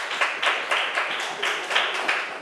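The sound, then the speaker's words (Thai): Students clapping together in a classroom, one group applauding another. The claps come as sharp bursts in a steady, rhythmic series at a moderate level. “กลุ่มสามปรบมือให้กลุ่มสามค่ะ”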